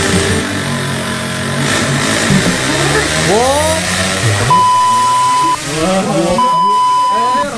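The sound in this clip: A car engine revs as the driver accelerates, its pitch sweeping up and down in loud, continuous noise, with two long steady beeps near the end.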